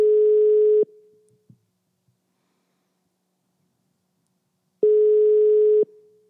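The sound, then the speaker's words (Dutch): Telephone calling tone while someone places a call: two long, steady beeps of about a second each, separated by roughly four seconds of silence. “We bellen met Dorette, even kijken of dat ze in de uitzending kan komen.”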